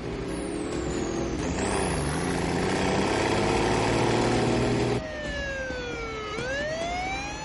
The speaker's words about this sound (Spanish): La ambulancia y el camión se ponen en marcha.